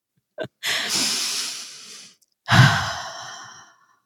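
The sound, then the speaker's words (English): A deep breath taken slowly: a brief click, a long hissing inhale, a short pause, then a louder exhale that trails off. “if you as the listener want to just take a like nice little deep breath with me, I think that would be like a very nice way to end this collectively.”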